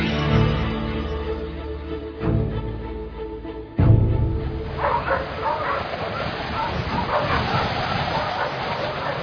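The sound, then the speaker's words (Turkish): Sled dogs bark, yip and whimper excitedly while being harnessed to a sled in rough weather, a busy, overlapping chorus of sharp calls and whines over a steady noisy background. “Jack çabuk köpekleri kızağa koş.”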